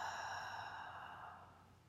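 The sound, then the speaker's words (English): A slow, relaxed exhale during a guided relaxation exercise: a soft, breathy hiss that flows out and gradually fades over nearly two seconds. “And when you're ready to exhale, just exhaling.”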